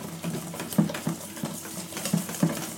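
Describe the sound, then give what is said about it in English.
Whisking batter in a bowl by hand produces many quick, rhythmic scraping and tapping strokes, with a steady irregular patter between sharper clicks. “Get my exercise here, doing my whisking.”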